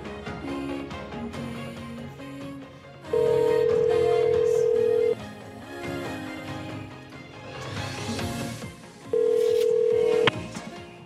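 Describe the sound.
Ringback tone from an unanswered phone call: two long, steady tones of about two seconds each, separated by a pause, over a dense layer of other sound.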